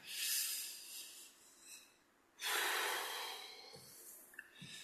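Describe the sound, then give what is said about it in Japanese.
A deep breath taken by a quiz host before the next question: a long, airy inhale followed after a brief pause by a longer, hissing exhale, faint and alone without talk. “はい、深呼吸。”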